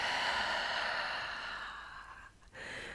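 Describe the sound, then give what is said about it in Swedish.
A deep breath drawn in through the nose and let out slowly through the mouth makes a long, steady, airy rush. It tapers off and pauses briefly before more breath noise resumes. “Ta ett djupt andetag in genom näsan, fyll upp bröstkorgen och magen med ny luft. Och öppna munnen och släpp långsamt ut luften genom munnen.”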